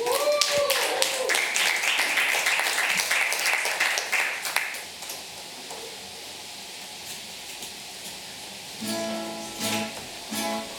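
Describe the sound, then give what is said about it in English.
Audience applause for a performer coming on stage at a live show. Sharp, dense clapping lasts about five seconds, then dies down to a much quieter background. “Well, let's make some noise for Marc, everybody.”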